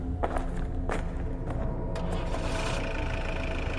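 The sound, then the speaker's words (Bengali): A car engine idles with its headlights on beside a road in wild country, giving a steady, continuous low rumble throughout, with a few faint thuds over it. “গাড়ির engine headlight সব on করে যাচ্ছি এই আওয়াজে কোনো বন্য জন্তু ও কাছে আসবে না”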